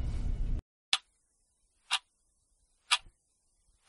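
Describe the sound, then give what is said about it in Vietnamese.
A clock outside a house ticks, four crisp, sharp ticks spaced evenly about one second apart in near silence, following a short burst of noise at the very start. “Tiếng kêu tích tắc từ chiếc đồng hồ ngoài nhà điểm từng giây trôi qua một cách nặng nề hết sức.”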